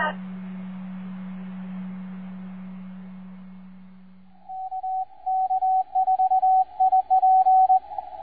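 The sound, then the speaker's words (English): Morse code tones carrying a call sign over amateur radio: a steady low hum and static give way to a rapid string of clipped, high, even-pitched keyed beeps that run to the end. “this guy's call is Kilo Kilo 4 India Papa. I'm not too good at Morse code.”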